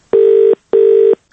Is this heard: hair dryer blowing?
no